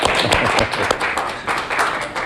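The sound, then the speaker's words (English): A small group gives a round of applause for a man named Bruce. The claps are sharp and fairly loud, with brief dips in the clatter. “Hey, before we all run, can we have a round of applause for Bruce?”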